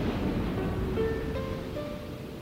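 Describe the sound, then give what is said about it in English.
Ocean waves surge and churn in a steady, dense wash of water noise that holds an even loudness throughout, with no distinct breaking crashes standing out. “the sound of the ocean, sound of waves, surging and churning of water.”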